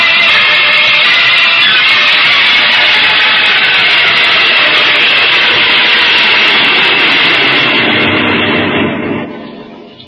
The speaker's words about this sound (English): We're going down.